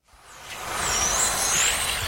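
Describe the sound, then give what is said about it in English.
Tiny electric toy cars race around a mini racetrack in south Berlin, a whirring, hissing rush with a thin high electric whine that builds quickly from silence and stays loud. “Here in the south of Berlin, a group of men have got together to race tiny electric cars around a mini racetrack. And they're off.”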